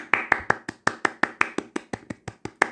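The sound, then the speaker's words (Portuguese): A clapping sound effect is set off by a button, a steady, rapid run of many sharp claps at an even pace, heard on its own. “Aí ah, eu vou bater palminha. Aí, aí tem um botão de bater palma. Vamos tentar?”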